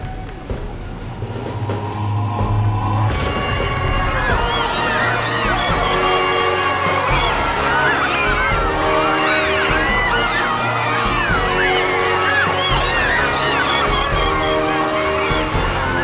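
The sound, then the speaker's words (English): An excited crowd cheers at the RCI Insurance Center, formerly Malik Arena, as a dense, loud roar with shrill cries layered through it, holding steady and unbroken from start to finish. “It's almost go time, and the excitement of the crowd is electrifying!”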